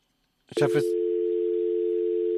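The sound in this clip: Telephone dial tone heard after a phone line dropped: a brief burst of voice gives way to a steady, unbroken mid-pitched hum that holds at an even level to the end.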